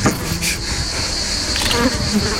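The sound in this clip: Flies buzz around a dead sheep, a dense, steady insect drone that continues without a break for the whole moment at fairly high volume.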